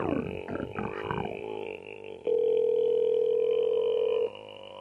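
Ringback tone of an outgoing telephone call: one steady electronic tone lasting about two seconds, after a few softer, murmuring noises.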